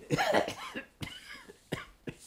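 Coughing from someone with a bad cough, fairly quiet and alone: a harsh, rasping fit at the start, then a few shorter, sharper coughs spaced apart.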